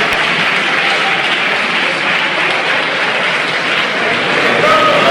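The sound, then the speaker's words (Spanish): Loud, sustained applause from deputies in the Spanish parliament, a dense, even wash of clapping that holds steady for the whole span. “no me refería a ninguno de ustedes, no sé por qué aplauden.”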